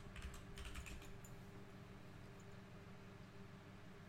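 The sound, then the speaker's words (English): Computer keyboard typing as someone enters a workout search: a quick run of crisp key clicks over the first second or so, then the keys go quiet beneath a steady low background hiss. “Let me try and type in his workout.”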